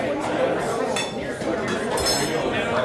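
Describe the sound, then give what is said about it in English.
Plates, glasses and silverware clink in a noisy dining atmosphere. A few bright chinks ring out over a steady bed of people talking. “I love this kind of atmosphere with all the noise, people talking, plates clinking, glasses and silverware.”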